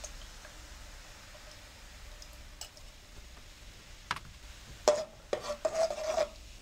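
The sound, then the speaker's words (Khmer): Coconut cream cooked with cane sugar is stirred in a pan, giving soft rasping scrapes against the pan. They are faint at first, then several louder strokes bunch together toward the end over a low steady background. “រំងាស់វាបន្តិចដើម្បីឲ្យខ្ទិះរបស់យើងវាឆ្អិនបន្តិច”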